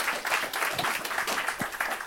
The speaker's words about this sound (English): First, can I have a huge round of applause for Michael? Great talk.